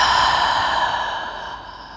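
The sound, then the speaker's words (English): A single long, deep breath exhaled through the mouth during a mindfulness meditation, a soft airy whoosh that fades steadily over about two seconds, heard alone without talk. “we'll take a deep breath in through the nose and out through the mouth.”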